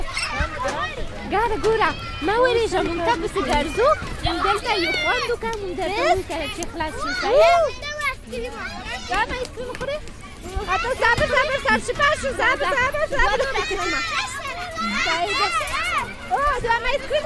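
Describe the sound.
Children playing outdoors at night around a slide, high-pitched young voices shouting and calling over one another in a continuous lively babble as they run about.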